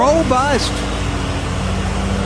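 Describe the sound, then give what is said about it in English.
A riding lawnmower's engine runs at 7:25 in the morning, giving a steady, even drone with a low humming undertone. A voice is heard briefly at the start. “This was 7:25 this morning. Riding lawnmower.”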